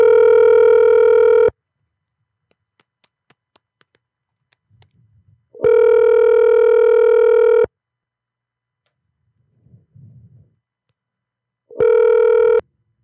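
Ringing tones of an outgoing telephone call: steady, buzzy electronic tones at a fixed pitch, loud and alone, in three bursts separated by silent gaps that carry faint clicks and small blips.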